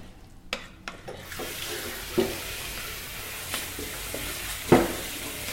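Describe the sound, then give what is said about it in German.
A spoon stirs lobster pieces through hot sauce, making soft scraping and swishing over a constant sizzling hiss, with a few sharp knocks of the spoon against the pan. “Können wir vielleicht eher mit dem Löffel dann rühren, damit wir uns nicht die Hummerstückchen äh, kaputt machen.”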